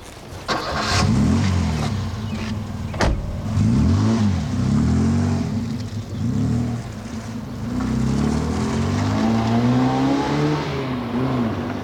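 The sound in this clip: A car engine starts and revs as the car pulls away, its note rising and falling repeatedly in loud, continuous surges that ease off slightly toward the end.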